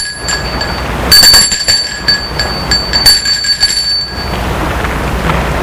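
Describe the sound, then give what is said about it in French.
A bell rung at the gate of a house, its bright metallic tones ringing out in a clear burst and then chiming on more faintly over a steady, noisy background. “le médecin va sonner au portail de la maison des Franblancs”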